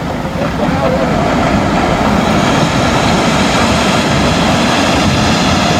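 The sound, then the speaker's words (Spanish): A landslide sends rocks down onto a road and blocks it. A loud, continuous roaring rumble holds steady throughout. “Ahí empieza el deslave. Ya está taponada la vía. Ya está taponada la vía. Y empieza otro gran deslave. Y ahí viene peor todavía.”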